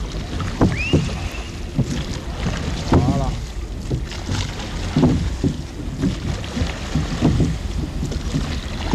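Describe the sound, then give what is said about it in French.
Oars pull a coxed rowing boat through the water at Le Barcarès, each stroke a splashy burst in a regular rhythm, with wind buffeting the microphone throughout. “Allez, planter à tribord et ramener à bâbord. Allez, à fond, et on dénage un peu.”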